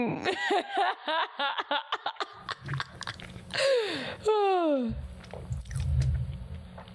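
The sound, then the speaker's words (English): Someone chews a dry White Castle burger, with slow, moist, squishy mouth sounds and bites in the gaps, while people talk and laugh over it. “Wow, it must be dry as hell. You're taking like forever to chew it as well.”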